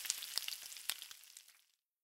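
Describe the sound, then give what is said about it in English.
Sausages sizzle and crackle in a frying pan for a cooked breakfast, a steady bright hiss dotted with sharp pops that fades out before the end. “Dad cooks a big breakfast. You don't like sausages,”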